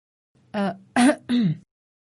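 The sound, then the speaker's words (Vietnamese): A woman coughs and clears her throat in three short, harsh, throaty bursts, each loud and separated by brief pauses, with silence before and after. “Cô thở dốc, tiếp tục húng hắng ho vài tiếng.”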